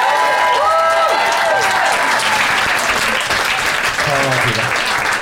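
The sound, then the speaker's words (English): An audience applauds loudly and steadily after being asked to vote by clapping, with a voice speaking over the dense clapping. “But if you think Jeff and Fanshawe made the best case, please applaud now.”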